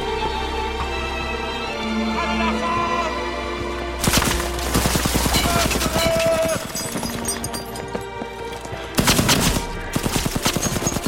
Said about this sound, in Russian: Немцы врываются на наблюдательный пункт с двух сторон. Лютиков мужественно стреляет по ним.